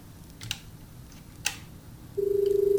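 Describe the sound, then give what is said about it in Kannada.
A telephone rings with an incoming call, starting late as a steady, pulsing electronic tone after two faint clicks over quiet background noise. “ಕರೆ ಬರ್ತಾ ಇದೆ”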